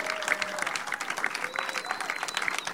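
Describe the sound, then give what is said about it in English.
Applause from a small audience of about 36 welcoming guests onto a comedy stage: dense, steady clapping that holds at an even level throughout, with some faint tonal sounds mixed in. “36 strong, giving it up for the guests.”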